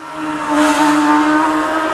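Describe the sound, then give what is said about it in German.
Superbike and supersport motorcycles race at full throttle in a top international field, their engines a loud, sustained high-pitched roar that swells after the first half second and holds steady. “Das ist Superbike, Supersport, Sportbike, internationales Topfeld, Vollgas auf Champions League Niveau”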